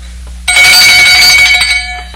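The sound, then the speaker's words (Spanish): A small handbell is shaken, ringing bright and high for about a second before trailing off, with a low hum underneath. “¿Oye usted esta campanilla?”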